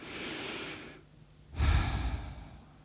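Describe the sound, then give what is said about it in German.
A slow, deep breath: a soft, airy inhale lasts about a second, followed by a brief pause, then a stronger, fuller exhale. Both are quiet and close, with no talking. “schließt einmal ganz kurz die Augen und atme einmal tief durch”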